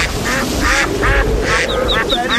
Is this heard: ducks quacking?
yes